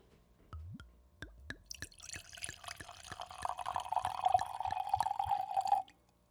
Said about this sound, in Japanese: やっぱワインの注ぐ音がいいですね。